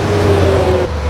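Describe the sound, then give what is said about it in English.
Cars pass by on Highway 70 in a brief, loud, steady roar of engines and tire noise. “That's the sound of thousands and thousands of cars passing the new Real Talk Radio location every single day.”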